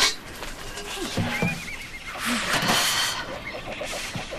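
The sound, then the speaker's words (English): A young mare whinnies in short, high, wavering calls, rising out of a low background noise. “Milk? This horse doesn't drink milk.”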